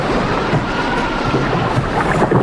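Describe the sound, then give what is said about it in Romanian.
Waves wash over a small wooden rowing boat on the water. They make a continuous, loud, rushing roar with a wind-like hiss and churning surges throughout, with no voices. “Trec valuri peste luntre, nu mai văd.”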